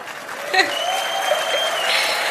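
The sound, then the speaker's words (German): Dense, sustained applause from a huge arena crowd of about 46,500 at a 100th-birthday celebration show, loud and even throughout with no clear breaks. “in der Immer wieder Sonntagsarena, alle eingeladen sind zum 100. Geburtstag und das ist euer Applaus”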